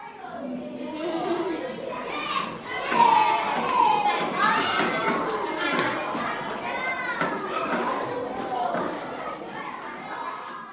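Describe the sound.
Children shout and play in school grounds: many young voices chatter, call out and shriek over one another at a lively, fairly loud level throughout.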